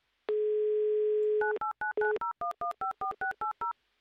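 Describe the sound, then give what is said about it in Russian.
Steady telephone dial tone holds for over a second, then gives way to a quick run of short touch-tone key beeps of varying pitch as a number is dialed. “я пока звоню Анастасии. Делаем это прямо сейчас.”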